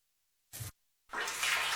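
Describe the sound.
Water splashing and gurgling in a clogged sink drain: a short splash, a brief pause, then a steady rushing pour.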